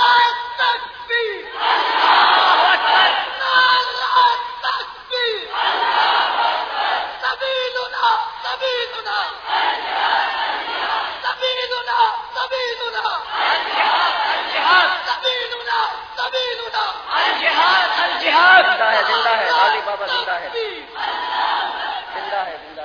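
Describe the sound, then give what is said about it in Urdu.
Crowd at a religious rally chanting slogans in unison: loud collective shouts repeat in rhythmic waves, swelling and dipping over and over for the whole stretch. “آپ بالحانہ نعروں کے ذریعے کفر کو چندان شکن پیغام دیں گے ان شاء اللہ”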